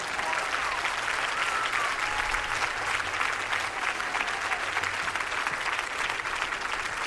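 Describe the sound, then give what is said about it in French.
An audience gives performers steady, sustained applause, a dense crowd of clapping hands that holds at an even level throughout. “je voudrais que vous fassiez beaucoup de bruit pour Iba Tawaji, mais également pour le groupe, le duo qu'on adore, Madame, Monsieur. S'il vous plaît, beaucoup de bruit.”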